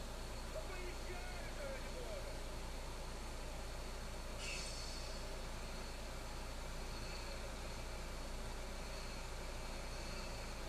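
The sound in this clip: A truck idles in a video game, giving a steady low engine rumble with a constant hum that holds the same pitch throughout, with no clear changes in speed or revving.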